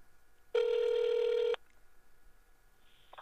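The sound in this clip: A single flat telephone ringback tone sounds for about a second while a call is being placed, loud and steady, then cuts off to a quiet line hiss.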